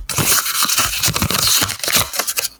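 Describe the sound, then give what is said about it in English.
A paper envelope is torn open in one continuous crinkly, rustling rip, with crisp crackles throughout and no voices. “So I have an envelope here. Okay. Shall I open it?”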